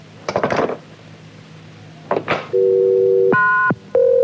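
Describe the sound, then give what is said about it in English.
A telephone handset clunks twice as it is hung up and lifted, then a steady low dial tone sounds. A brief, higher, brighter tone follows while an operator is dialed, and then the low tone returns. “Hang up and dial O, ma'am. Dial O.”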